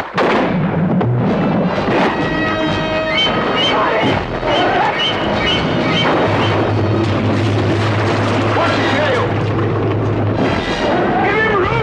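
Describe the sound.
Gunfire aimed at a charging shark of about 25 feet and three tons: heavy, loud blasts in a dense, continuous din with sustained tonal layers running underneath throughout.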